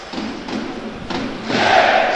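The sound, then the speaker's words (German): Football stadium crowd roaring and clapping in the south stand as the team stands before it after a home win in a season opener, with a few dull thumps and the noise swelling louder toward the end. “Ja, die Mannschaft steht jetzt gerade im 16er vor der Südtribüne und man klatscht da sich gegenseitig den Jubel, die Mannschaft ebenso wie die gesamte Südtribüne.”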